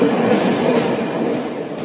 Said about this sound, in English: Looks like another train has reached Shanti Kunj.